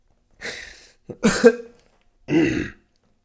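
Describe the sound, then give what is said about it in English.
Three harsh, throaty coughs right into a microphone, loud and close, the middle one broken into a quick double burst, separated by brief silences. “Hopefully it did, because I just coughed right into the fucking mic.”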